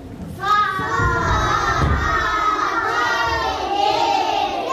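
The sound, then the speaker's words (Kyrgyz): First-grade schoolchildren shout together in a village school classroom, many young voices in a loud, sustained chorus that carries on without a break, with a few dull thumps underneath. “Саламатсыңарбы балдар? Бул Чоңалайдагы Буркан суу орто мектебинин 1-чи классынын окуучулары.”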